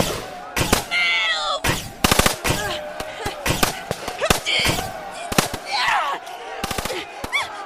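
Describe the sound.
Automatic gunfire during a video game firefight: loud, rapid bursts of shots that repeat across the whole stretch with short gaps between volleys.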